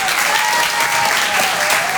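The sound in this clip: Audience at a stand-up comedy show applauding a comedian, dense and steady clapping that holds at an even level for about two seconds.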